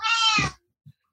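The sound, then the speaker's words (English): An angry, unhappy cat lets out a single loud, harsh meow lasting about half a second, followed by silence and a faint short sound. “The angriest cat. She is very unhappy about something.”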